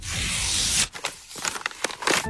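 A greeting card is handled and opened: a steady papery rustle, then a few scattered crinkles and small tearing snaps.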